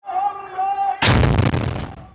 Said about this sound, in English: Footage released by the military shows soldiers using heavy, shoulder-fired rocket launchers, causing the roof of the house to partially collapse.